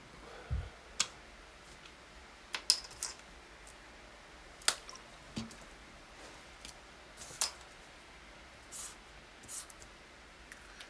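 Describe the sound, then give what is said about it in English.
Computer mouse clicks while opening a Dropbox folder: many faint, sharp clicks at irregular intervals against a quiet background. “So in order to open up Dropbox, let's open up the folder.”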